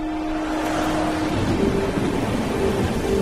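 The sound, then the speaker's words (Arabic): Heavy rain pouring down on a street, a steady, dense hiss that stays even throughout with a faint low hum beneath. “الدنيا بتشتي جامد قوي وعندي انا حساسيه من الميه”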